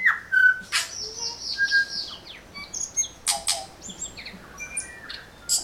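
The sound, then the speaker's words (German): A tui bird calls in a varied string of bright whistles, sharp squawks and short chirps, with many separate notes and clicky bursts spaced irregularly against a quiet background. “Das war der Tui. Ja, also der heißt wirklich so.”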